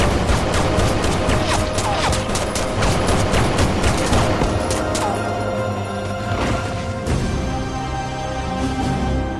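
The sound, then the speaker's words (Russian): Gunfire in a film scene: many sharp, loud shots in a rapid, dense burst through the first half, then fewer scattered cracks and a crashing impact, with heavy rumbling underneath. “Сзади Сайкс целится Фрэнкса. Сайкс открывает огонь, Фрэнкс падает на пол.”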